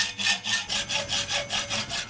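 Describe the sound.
Rasping back-and-forth strokes of a handsaw cutting a steel bar by hand, with many quick, even, gritty strokes and no talk.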